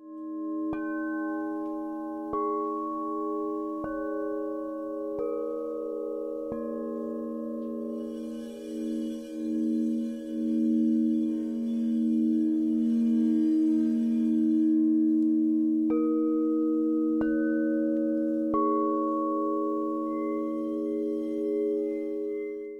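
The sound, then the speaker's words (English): Singing bowls played by a sound healer: several struck bowls ring out in long, sustained, overlapping hums whose overtones waver and pulse, with a few fresh strikes added near the end. “So could you maybe play a few of the bowls so people can understand what it sounds like? Sure. Absolutely.”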